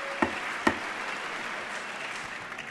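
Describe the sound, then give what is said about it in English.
A gavel strikes twice in quick succession over sustained, steady applause from standing members of Congress at a State of the Union address; after the two sharp knocks the clapping carries on alone at an even level. “President getting a very sustained, prolonged round of applause from the members who are standing and welcoming him as he gives his last, or is about to give his last State of the Union. And now the gavel falls.”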